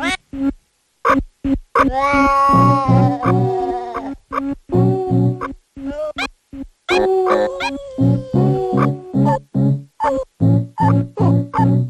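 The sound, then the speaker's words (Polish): Cat meows arranged into a musical track, many short pitched cries strung together in a rhythmic, melodic sequence, some held longer with clear tonal wavering, separated by brief silences. “Utwór ten został stworzony tylko za pomocą odgłosów kotów.”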